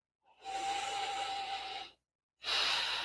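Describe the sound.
A big, deep breath: two long, breathy rushes of air, the first lasting about a second and a half, then a short silence before a second strong breath begins, with no talking.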